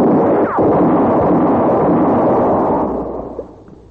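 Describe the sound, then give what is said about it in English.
A loud gunshot-like blast during an armed standoff near a well, a broad roaring burst that holds steady for about three seconds, then fades with a faint sharp crack near the end. “Answer me or I'll shoot again.”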